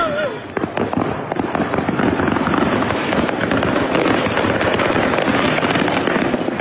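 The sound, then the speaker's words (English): Fireworks from a display over the I-75 interstate highway crackle and pop without pause, a dense, loud barrage of overlapping bursts and rapid crackling that runs the whole length. “it's a fireworks display on I-75. So one guy hopped out of his car to check out the show, and he filmed it.”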